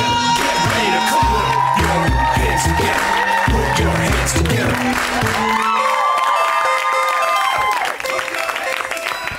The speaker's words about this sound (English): I hear some very high-pitched noises from the audience. Thank you for your energy.